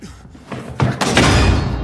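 Heavy pounding of a shoulder and hands against a wooden door: a few dull, booming thuds close together that grow louder and run into one another.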